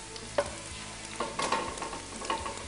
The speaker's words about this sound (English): going to throw a little olive oil on the bottom of this. Just like Mom used to do. Grease the pan up.